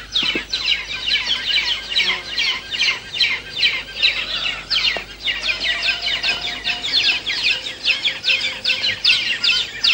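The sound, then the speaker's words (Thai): Brown hornbills call noisily at the nest while taking turns to feed. Many harsh, rhythmic calls repeat rapidly and steadily throughout, with no voices. “นกเงือกสีน้ำตาลจะผลัดกันเข้าป้อนทีละตัวด้วยการต่อคิวรอหน้ารังมีบางครั้งที่ตัวหนึ่งยังป้อนไม่เสร็จแต่มีตัวอื่นบินเข้ามาเตรียมจะป้อนต่อและส่งเสียงร้องเอะอะ”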